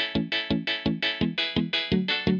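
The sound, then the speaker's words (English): Ska guitar strumming alternates a muted, percussive downstroke chunk with a bright, ringing unmuted upstroke. The pattern repeats in a steady, quick, even rhythm of many strokes. “So you mute the bottom strings while you're playing your downstroke on the guitar, and then unmute the upper strings while playing the upstroke.”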